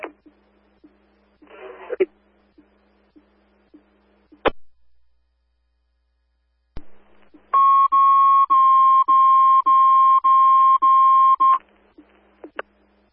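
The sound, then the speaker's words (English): An Aero Fire dispatch alert tone: a loud, steady electronic tone pulsing evenly for about four seconds. Sharp radio squelch clicks and a short static burst come before it. “Aero fire placing tone station coverage needed.”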